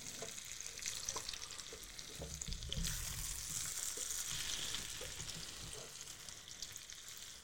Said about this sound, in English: the onions and the tomatoes to one side and chucked the potatoes in the other half. And now I'm going to mix it all together.